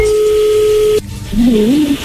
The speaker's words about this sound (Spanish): A ver, ya entra ahí la llamada, no haga ruido.